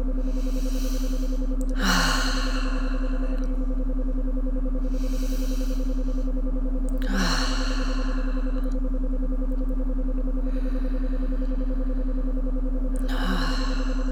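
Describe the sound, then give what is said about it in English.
Slow, deep breathing: several long, soft breaths at an unhurried, regular pace, heard alone over a steady low electrical hum. “Taking a few deep breaths.”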